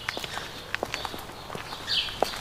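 Footsteps of a man walking back and forth between two palaces, several soft, faint steps at an unhurried pace.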